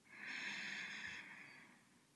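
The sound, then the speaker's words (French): A deep breath in during a guided relaxation exercise: a soft, airy hiss that swells and then slowly tapers away over about two seconds. “Pour bien ancrer ce moment à l'intérieur de vous, vous allez prendre une profonde inspiration.”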